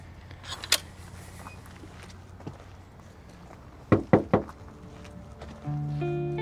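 A gate being opened: a few sharp clanks and rattles come in quick succession after a quiet stretch with an earlier lone knock, then a steady droning tone begins near the end.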